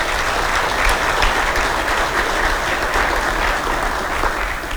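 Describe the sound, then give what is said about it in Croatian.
Sustained applause from an audience clapping for quiz winners and student participants of a simulated session of the Croatian Parliament: a dense, even, loud patter of many hands with no break. “Molim jedan pljesak za njih.”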